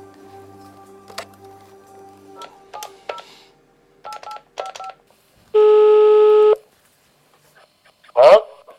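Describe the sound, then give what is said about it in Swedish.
Touch-tone dialing on a telephone to place a call: several quick clusters of short keypad beeps, then a longer steady ringing tone and a brief burst of voice at the end. “Men nu tänker jag ringa till några av deras föräldrar.”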